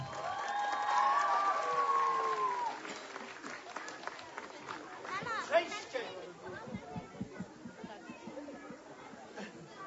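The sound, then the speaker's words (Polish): Applause mixed with crowd chatter as guests are welcomed onto a stage at an event for children at a sanctuary in Kraków's Łagiewniki; a voice is heard over the clapping early on, then scattered claps and murmuring continue. “Prosimy na scenę. Brawa!”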